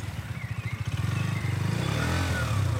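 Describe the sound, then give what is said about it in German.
A motorcycle pulls away slowly as a learner rider eases out the clutch and gives a little throttle. The low engine putter starts in pulses, then turns steadier and slightly louder after the first second. “Doch es klappt, das so typische Merkmal jedes Motorrads ertönt.”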